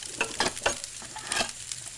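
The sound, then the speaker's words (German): Soft crackling, snapping and knocking as a few wooden logs are laid onto a wood fire kept going for cooking with a kettle. Quiet, irregular pops and rustles with no voices. “Kein Problem, ich lege noch 2, 3 Scheite drauf. So, die 3 hier müssten erstmal reichen.”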